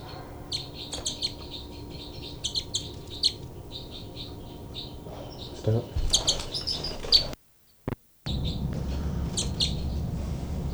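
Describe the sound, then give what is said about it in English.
Two birds trade sharp threat calls during a fight: bursts of high, chirping squawks repeat in quick clusters, at times overlapping, with a low background rumble and a brief gap of silence near the end. “Both birds fight by threat call by 318.”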